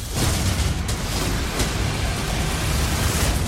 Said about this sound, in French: Ouh là là, déjà, j'ai rien compris, ça a explosé dans tous les sens.